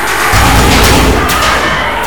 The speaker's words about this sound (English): The Tiger, Triceratops, and Mastodon line up, firing their cannons and eye blasters into Cyclopsis with huge impacts.